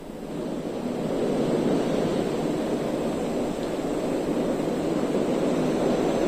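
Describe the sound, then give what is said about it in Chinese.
Strong typhoon wind and high waves roar on the island coast of Zhoushan, Zhejiang, after landfall. The noise is dense and continuous, steady and loud throughout, with no voices. “我看到从画面当中看到也是风大浪高啊，赶紧来给我们介绍一下台风登陆以后舟山的情况。”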